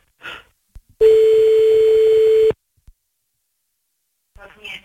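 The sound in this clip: A telephone line tone sounds while calling back someone who hung up: one steady, mid-pitched, buzzing tone lasting about a second and a half, with brief voice sounds just before and after it.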